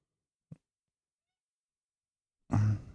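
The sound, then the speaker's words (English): A cat meows at a shut door, wanting to be let inside: a faint brief sound comes first, then one loud, drawn-out meow near the end after a silent stretch. “I guess we're letting the cat in.”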